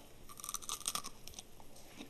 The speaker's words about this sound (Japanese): 焼きらっきょうの出来上がり出来たてほやほや焼きたてほやほやいただきます